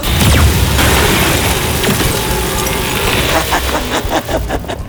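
A laser weapon fires at a starship's computer: a loud, dense roar of crackling noise and rumble that runs throughout and breaks into a rapid series of sharp bursts and pops near the end.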